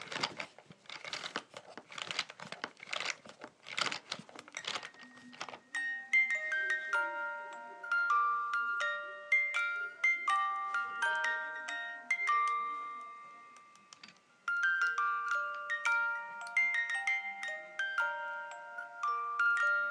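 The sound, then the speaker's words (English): A wind-up toy is cranked with a few seconds of dry clicking and crinkling, then its music-box mechanism plinks out a slow tune of bright, bell-like plucked notes that rise and fall, quiet and alone. “the tune just randomly comes into my head, so I thought I would wind up the toy and just play the sound for you. Here we go.”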